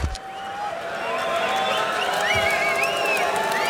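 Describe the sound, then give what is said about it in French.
A rock concert audience waiting in a darkened venue cheers, a continuous crowd roar that swells after the first moments, with whistles and whoops rising above it. “Et vous entendez le public qui patiente ici.”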